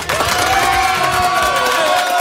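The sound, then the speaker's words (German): Schoolchildren and teachers at a school cheer loudly, with high-pitched shouts and whoops in one brief, continuous burst. “Dicken Applaus von unseren Schülern und von allen Kollegen.”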